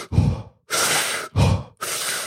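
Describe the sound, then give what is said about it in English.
Rapid, forceful hyperventilating breaths taken before a breath hold: four loud, breathy bursts in quick succession, each a full rush of air with only brief gaps between. “So this happens with hyperventilation. You know, just basically what you see a lot of people doing before they hold their breath”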